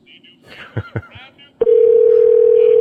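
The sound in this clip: Telephone line tone during an unanswered call: a steady, unbroken mid-pitched tone cuts in abruptly and holds loud to the end, after a brief stretch of voices.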